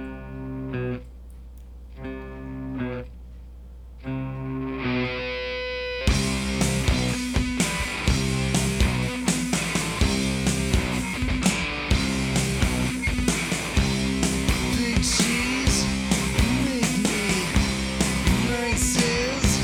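A raw, rough rock recording released as a B-side and later a reissue bonus track opens with a sparse, quieter guitar part. After about six seconds a loud full band with pounding drums and distorted guitars comes in and keeps going.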